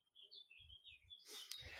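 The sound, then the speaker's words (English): Birds sing outside an open balcony, a faint string of high, warbling chirps, followed by a brief burst of broad rustling noise. “your birds are being like really coming through your microphone. It is really delightful. Have you got lots of bird song outside?”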